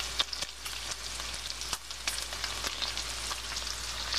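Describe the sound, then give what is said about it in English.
Bacon fries in a pan with a constant bright sizzle, scattered crackles and small pops, and no voices. “Do you hear that sound? What is the secret to happiness? In the morning, start your day with bacon.”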